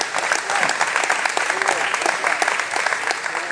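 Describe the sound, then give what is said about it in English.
An audience claps during church worship, the dense, rapid clapping running steadily and loudly throughout, with voices mixed in beneath the crowd's hands. “Now I need us to go beyond just clapping our hands and into praise and into worship right now.”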